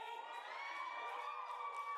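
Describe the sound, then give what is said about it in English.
A crowd at a video game presentation cheers and whoops in a steady, sustained roar. High shouted voices ring out throughout. “Crowd is riled up.”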